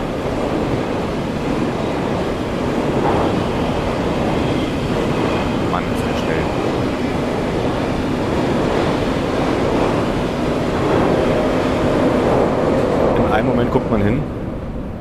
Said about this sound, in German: Hier wird jetzt ein ICE vorbei.